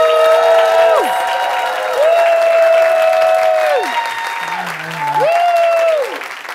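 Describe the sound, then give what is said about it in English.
Live show audience applauding and cheering as a guest is introduced, continuous dense clapping with drawn-out, high whoops rising and falling over it. “Put your hands together for Ms. Gabrielle Ruiz.”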